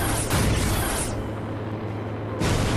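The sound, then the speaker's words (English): A missile detonating in a sci-fi battle, a loud, sustained roaring blast that eases slightly midway before surging again. “I came prepared this time. Can your lightsaber deflect these? Missile.”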